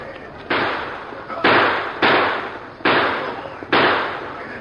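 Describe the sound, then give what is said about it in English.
Gunshots fired at a target by a rider at a gallop in a cowboy shooting contest: five sharp, loud bangs at uneven intervals, each followed by a hissing decay. “Then followed a shooting event, riding at a gallop past a target and firing six shots.”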